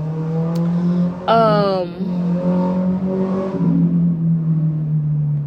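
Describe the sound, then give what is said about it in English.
A loud car passes outside an apartment building, its engine a strong humming drone that surges sharply about a third of the way through with a sweeping pitch, then settles back into a steady rumble. “y'all probably heard that car, and I swear I don't even live on the street, but my apartment building echoes outside, and so when loud cars pass by or motorcycles,”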